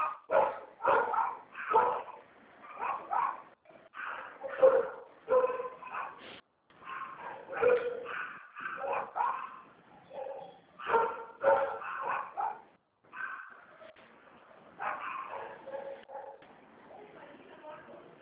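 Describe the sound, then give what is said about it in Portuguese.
Several dogs barking in the street, many sharp, repeated barks in bursts throughout, with people talking over them. “Só um minutinho, tem uns cachorros latindo aqui na rua”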